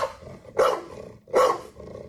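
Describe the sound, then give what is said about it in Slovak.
Two dogs of different breeds bark one after the other, each giving a single rough, loud bark, separated by a short pause over a faint low background. “Takže púšťame dva teraz. Dvakrát štekot, dve plemená, dvoch psíkov”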